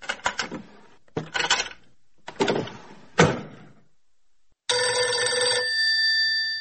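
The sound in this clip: A telephone rings in one continuous bright, bell-like tone that holds steady to the end, after a few separate door-like bangs and clatters and a brief silence.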